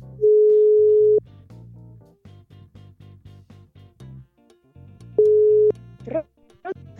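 Telephone call tone while phoning a guest: two long, steady ringing tones with other sound between them, the second tone shorter than the first.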